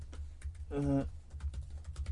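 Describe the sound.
Keystrokes on a computer keyboard while someone fills in an online registration form. Many quick, light clicks come in an irregular rhythm over a low, steady hum, faint overall.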